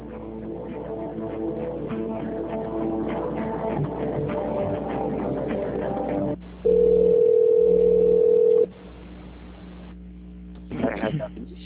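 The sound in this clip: A telephone line tone plays while a call is transferred. A steady, flat, continuous tone holds for about two seconds after a busier stretch of line audio, followed by a short burst of sound near the end.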